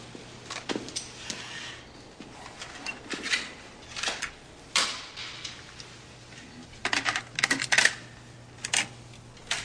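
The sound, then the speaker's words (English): A cassette tape being handled gives off a series of sharp, irregular plastic clicks and rattles, some louder than others, with no talking over them. “that is a cassette tape. Cassette tape you hear. He didn't open a DVD player.”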